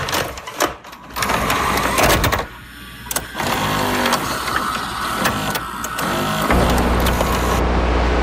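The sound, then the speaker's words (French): Motorized whirring and mechanical clunks from an old VHS video cassette player run continuously, with shifting texture, a brief dip partway through and a steadier, louder hum near the end. “Mais non, c'est un VHS que vous entendiez. Un bon vieux lecteur de cassettes vidéo.”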